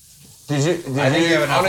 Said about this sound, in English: All right, we are dredged. You ready? All right. We may not have enough oil in here.